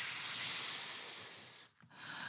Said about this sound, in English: There, in the shadows, was an enormous coiled snake, and they heard its terrible, frightening